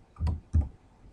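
Two sharp computer mouse clicks from a right-click while adding a new server in Windows Server Manager. The clicks are crisp and short, a fraction of a second apart, over faint background hiss.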